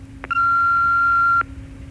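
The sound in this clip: An answering machine beep sounding before a message is recorded: a single steady, mid-pitched electronic tone held for about a second, with faint clicks at its start and end and light background hum.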